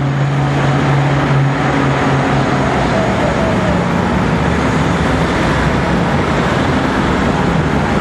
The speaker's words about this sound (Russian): Свернув с оживленной улицы, такси поднимается по уходящей круто вверх дороге.